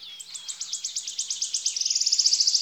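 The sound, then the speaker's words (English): A wood warbler sings a run of thin, high notes that start spaced apart and quicken steadily into a fast, shimmering trill. The song is fairly faint against a quiet background. “On Granurn, you can hear the wood warbler sing.”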